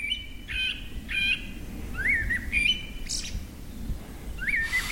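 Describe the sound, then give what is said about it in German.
Forest birds singing in the evening: a few short, high whistled chirps and trills repeated at intervals over a low, steady rumble, with no voices. “Eine Runde mit Abendkonzert der Waldvögel.”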